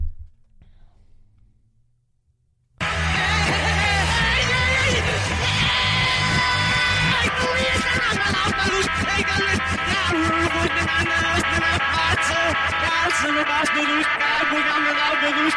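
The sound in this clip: A song recording played backwards, about three seconds of near silence followed by loud, continuous, dense garbled music and reversed vocals that run to the end.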